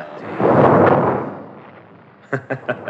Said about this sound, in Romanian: Nu vă speriați. S-a tras o salvă de tunuri în onoarea mea. Pentru asta nu trebuie să tresăriți.